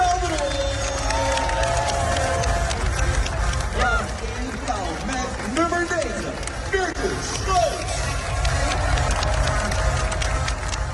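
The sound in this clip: Crowd noise at an Olympic volleyball match in Rio: a loud, continuous mix of cheering and babbling voices, with individual shouts rising out of the din throughout.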